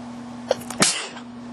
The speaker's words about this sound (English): That was kind of a sneeze. I might need to do it again.